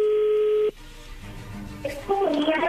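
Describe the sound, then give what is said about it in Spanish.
A phone call connecting: a steady electronic ringing tone holds for under a second, then cuts off into soft line hiss and clicks, with a voice coming in near the end. “Ya entró la llamada.”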